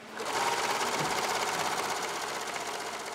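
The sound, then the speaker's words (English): A serger sews fabric handles for recycled, reusable shopping bags at a community sewing event, a fast, steady mechanical whir that runs unbroken and fairly quietly throughout. “And then over there, they're serging the handles um, and sewing.”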